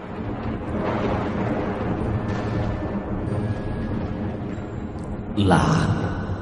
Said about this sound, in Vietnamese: lập tức nhìn thấy trên bầu trời những tia sét đánh xuống, cho bọn chúng tan thành mây khói